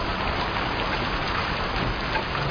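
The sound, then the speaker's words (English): Rain falls steadily on a cold, wet day, making an even, continuous hiss of drops that stays at the same loudness throughout, with no voices. “It's a cold and a wet out of here. Trust we'll be safe in the rain.”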